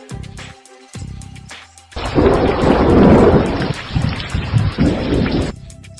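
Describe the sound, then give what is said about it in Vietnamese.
Heavy thunder rumbles overhead during a late-summer storm, a loud, deep, sustained roll lasting several seconds. Steady rain patters throughout, both before and after the rumble. “Tiếng sấm nặng nề vang dội trên đỉnh đầu.”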